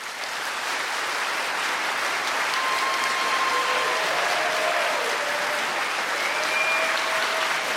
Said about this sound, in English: Please join me in giving a warm town hall welcome to Ralph Nader.